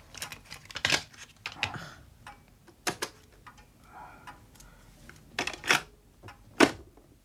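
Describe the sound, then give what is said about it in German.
A cassette is pushed into a tape player, giving a series of faint, irregular mechanical clicks and clacks. Several sharp taps stand out against quiet gaps. “Bitte Kassette einlegen.”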